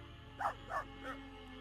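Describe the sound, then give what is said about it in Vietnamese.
A dog barks three times while scratching the ground under a mango tree with its front paws, evenly spaced mid-pitched barks over a steady low hum, fairly faint. “Nó dừng lại ngay dưới gốc cây xoài rồi cứ như vậy cào hai chân trước xuống mặt đất. Vừa cào nó vừa sủa lên vài tiếng.”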